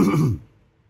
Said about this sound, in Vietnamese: Bất giác ho nhẹ một tiếng, Khuê Lan